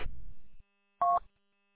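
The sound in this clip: A single short dual-tone touch-tone beep sounds from a phone that is rerouting a call. It is clear and steady and follows a brief burst of low rumbling noise.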